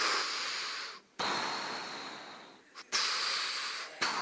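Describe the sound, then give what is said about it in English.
A voice imitates the heavy respirator breathing of a masked villain: long, hissing, breathy rushes of air alternating with short pauses, fairly faint and with no talking. “And so while they're having this meeting, Darth Vader walks in. He's got that breath.”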